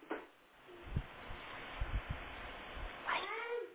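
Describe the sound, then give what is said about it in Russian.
A cat gives one clear, squeaky meow near the end, after a few soft thumps and rustles. “Котик, чего ты пищишь?”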